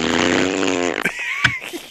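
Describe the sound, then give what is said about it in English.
A fart noise: a buzzy, low blat of about one second, followed by a few shorter sputtering sounds and talk. “Fart noise. Insert fart noise.”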